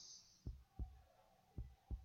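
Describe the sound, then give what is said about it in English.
A person's heartbeat thumps softly as two pairs of low, muffled beats, each pair a quick double pulse, with steady quiet between the pairs. “Listen to my heartbeats and fall asleep in my arms.”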